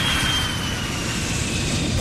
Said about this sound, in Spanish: en un avión con destino a Malé